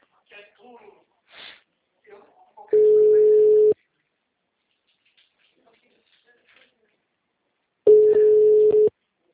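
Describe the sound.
A telephone busy tone follows a dropped call: two long, steady, low-pitched tones of about a second each, separated by several seconds of quiet, with a few brief faint sounds at the start.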